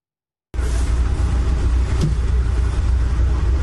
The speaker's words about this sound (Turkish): Sürücü bir anda direksiyon hakimiyetini kaybetti. Otobüsün yoldan çıktığı anlarsa bölgedeki bir güvenlik kamerasına yansıdı.